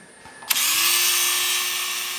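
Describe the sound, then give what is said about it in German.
A motorised saw cuts ancient bones or teeth in an isotope lab. After a brief click it spins up with a sharp burst, then holds a loud, steady high whine with a slight rise in pitch at the start. “Im Isotopenlabor werden uralte Knochen oder Zähne fein säuberlich zersägt.”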